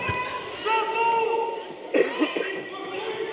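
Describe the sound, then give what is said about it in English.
Basketball dribbled on the court during a women's game, a few dull bounces standing out midway over a steady background of crowd noise. “between the circles and that left handed dribble”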